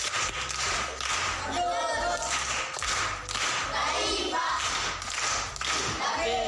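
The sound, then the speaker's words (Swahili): Schoolchildren clap for a pupil in a primary school class. The group claps in loud bursts, a few strong rounds with short dips between them. “Makofi kwa mjomba.”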